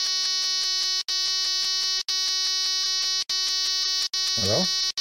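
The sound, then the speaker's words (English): A harsh electronic buzzer bleeping out a spoken word: a loud, steady, harmonic-rich buzzing tone broken by four brief dropouts into five segments. “I think that was the buzzer that bleeped out what he was about to say.”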